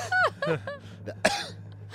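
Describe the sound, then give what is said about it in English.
Throat clearing, a few rough voiced rasps followed by a sharp harsh burst, moderately loud above a steady low hum, with no talk over it. “You have some in your throat? Excuse me. Yeah, clear it out.”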